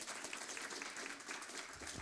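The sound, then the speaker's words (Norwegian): Audience applause as a man is called up to give a testimony at a gathering, a brief, faint patter of many hands clapping at a steady level throughout. “Rolf, bare gi Rolf en god applaus.”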